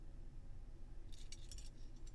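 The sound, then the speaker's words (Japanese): Keys jangle faintly as a key is removed, with a few light, bright metallic clinks scattered through the second half over a low steady hum. “まずは鍵を、そしてケースとリング。”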